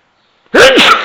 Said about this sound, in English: Sneezing, for example.